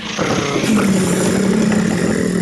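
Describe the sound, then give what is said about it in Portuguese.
Engine of Hancock's car runs with a loud, steady mechanical rumble and slight clatter, its pitch nudging upward briefly as it revs, with no other sounds. “Ligou o motor do carro do Hancock.”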